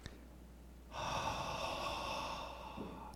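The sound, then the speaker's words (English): A person exhales one long, breathy puff as if breathing out onto someone, imitating the act. A brief quiet start gives way to a steady, soft airy rush that lasts about two seconds. “He breathes on them.”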